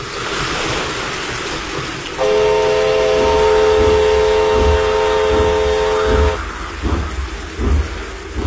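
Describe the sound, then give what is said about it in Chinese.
A train slowly approaches and runs onto a flooded track bed during a rainy test run. A steady, sustained horn-like tone lasts about four seconds over a constant rumbling, rushing wash of noise. “火车慢慢地驶了过来，驶进了漫着水的路基。”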